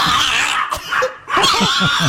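A dog lets out an unpleasant, squealing noise likened to a pig being gutted: a quick run of short, strained, harmonic yelps and whines.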